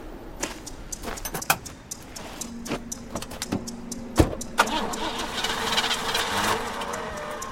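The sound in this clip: A car engine cranks without catching, making a churning, whirring sound with scattered sharp clicks and clunks. It stays fairly faint and grows denser toward the end, with no talk.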